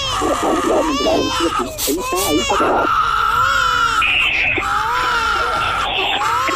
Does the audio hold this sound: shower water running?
no

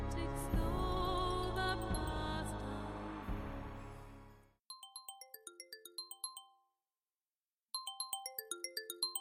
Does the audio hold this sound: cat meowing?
no

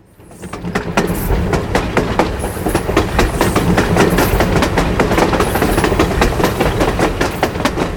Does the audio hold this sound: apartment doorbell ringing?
no

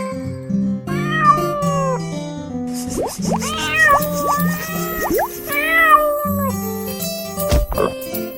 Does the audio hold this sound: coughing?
no

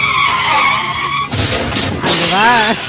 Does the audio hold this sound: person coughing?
no

